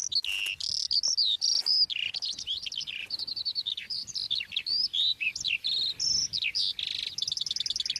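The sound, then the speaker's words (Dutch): Eurasian skylark song, the males singing high in the air: a continuous, rapid stream of high, warbling chirps and trills, unbroken and lively throughout, with no voices. “Maar je zei net ook de veldleeuwerik, een van de vogels die het dus zwaar heeft in ons land. Laten we even luisteren hoe die ook al klinkt.”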